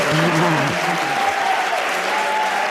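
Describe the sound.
A live audience applauds and cheers with a thick, continuous wash of clapping, while sustained shouts and whoops ride over it throughout.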